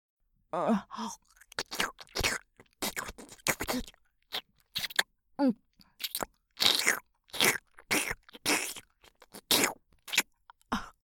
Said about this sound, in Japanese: 兄さんの耳はとてもおいしいよ。程よい弾力がとても心地いいんだ。まだまだ味わい足りないな。